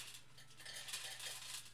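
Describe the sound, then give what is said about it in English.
An automatic cat food bowl, its clock reset after a power outage, goes off on its own with a faint, steady whirring rattle and hiss above a low, constant hum. “what the fuck is that? That's the cat's food bowl that when our electricity went out, I have to reset the clock on it. So it's like happening sporadically.”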